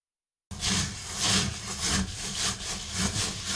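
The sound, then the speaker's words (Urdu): Fingers rubbing wet rice grains together in a sieve while washing, the Japanese togu method: gritty, rhythmic swishing strokes that begin abruptly after a brief silence and carry on steadily. “چاولوں میں انگلیاں گھماتے ہوئے دانوں کو ایک دوسرے کے ساتھ رگڑتے رہیں۔ اس عمل کو جاپانی میں توگو کہا جاتا ہے۔”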